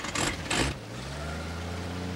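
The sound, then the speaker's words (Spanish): A pickup truck on a muddy road: two brief noisy bursts at the start, then a low, steady engine hum holding evenly to the end. “La camioneta se aleja. El vehículo recorre un tortuoso camino embarrado”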